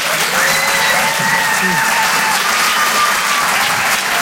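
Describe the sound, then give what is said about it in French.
Loud, dense audience applause at a comedy club as a comedian is welcomed on stage, a continuous even roar of clapping lasting the full four seconds. “Je vous demande de faire un maximum de bruit, s'il vous plaît, pour David Azria.”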